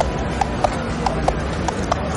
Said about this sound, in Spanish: Vamos, tire con ese caballo.